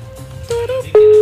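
A telephone call goes unanswered during a prank call: two short electronic tone pulses, then a steady, louder tone that holds to the end over a faint low hum.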